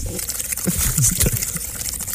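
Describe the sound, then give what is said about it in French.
Bubbles blown into a glass of liqueur make a soft, irregular gurgling burble of small liquid pops and trickles, fairly faint and continuous across the short stretch. “fais des bulles dans ton verre de liqueur. C'est ma liqueur, non?”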